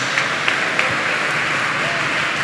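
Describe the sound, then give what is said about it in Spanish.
Applause from a church audience during a service: steady, dense clapping that fills the short clip at an even level, with a few sharper claps standing out. “Demos el aplauso al Señor en esta hora.”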